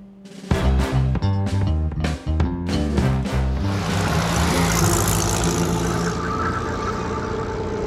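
A car driving fast, its loud engine roar swelling into a dense, sustained rush after several sharp percussive hits at the start, with no voices.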